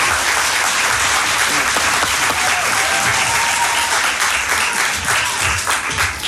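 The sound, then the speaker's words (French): An audience claps loudly and continuously to welcome a guest musician. The dense, steady applause stays at full strength throughout, with no clear voices. “Plus de bruit pour Issa.”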